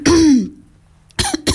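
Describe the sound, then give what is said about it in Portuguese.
A person coughs once, a harsh, throaty burst with a rasping, falling tone. A quiet pause follows, then two brief, loud vocal bursts. “agora até me deu aqui uma tosse”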